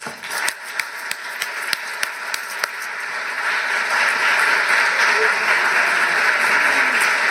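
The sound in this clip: Audience applause welcoming a speaker to a talk, opening with a few scattered, sharp claps that swell into dense, steady clapping lasting to the end.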